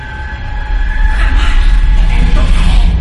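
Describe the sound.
A train at a railway station in a film, a deep rumble with hiss that swells after the first second and then holds loud and steady, with thin high whining tones on top.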